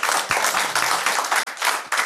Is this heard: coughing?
no